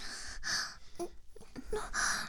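Heavy panting breaths come in a few airy gusts, with short voiced gasps and catches of breath between them, fairly soft overall.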